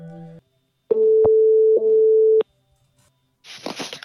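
Ringing tone of an outgoing call placed over Discord: a steady mid-pitched electronic tone lasting about a second and a half with a brief break, preceded by a short tone blip and followed after a pause by a short, noisy burst.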